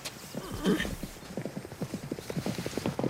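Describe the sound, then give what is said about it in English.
Thoroughbred horses gallop on a racetrack, a fast, steady run of many hoofbeats pounding in a driving rhythm from start to finish. “Horses gallop on the racetrack”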